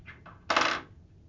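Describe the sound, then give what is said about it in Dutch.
A guilder coin turned over on a table: two faint light taps followed by a short, bright metallic clatter that quickly fades, heard alone. “Leg de gulden tussen de twee kwartjes. Heel goed. Draai de gulden andersom.”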